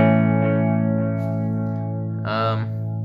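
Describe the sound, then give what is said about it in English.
Tape echo delay from an effects unit: a sustained, buzzy, harmonically rich tone holds and slowly thins, and a brief voice cuts in near the end. “this is the first delay on here. It's a drip delay. Pretty good. Tape echo.”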